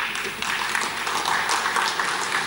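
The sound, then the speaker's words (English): Weak applause from an audience, a thin, scattered patter of clapping held at a fairly steady, modest level. “that is a very weak applause. Maybe it's coming from workers. It's coming from workers.”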